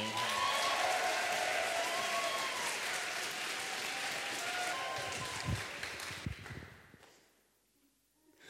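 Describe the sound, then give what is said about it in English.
Enthusiastic applause welcomes a performer at a spoken word poetry prize event in Melbourne: loud, dense crowd clapping that holds steady, then thins out and fades to near silence toward the end. “please welcome, with a massive round of applause, Amy Bedossian.”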